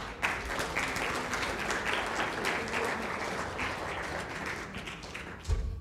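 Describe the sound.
Audience applause welcomes a guest speaker up to the stage. Many hands clap in a steady, even patter for several seconds, easing slightly toward the end.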